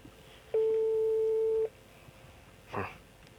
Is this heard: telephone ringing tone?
yes